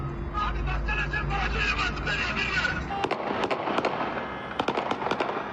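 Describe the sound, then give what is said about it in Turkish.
Sharp gunfire cracks ring out during a police shootout with armed suspects who had taken a taxi driver hostage in Gaziantep, Turkey; many rapid shots in uneven bursts follow a stretch of raised voices. “Silah seslerinin yükseldiği yer Gaziantep.”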